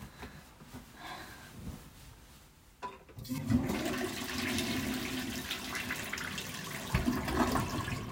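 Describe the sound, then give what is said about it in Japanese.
A toilet flushes after use. A quiet moment gives way to a loud surge of rushing water, which keeps up as a strong, steady roar until the end. “じゃあ流していきますね。”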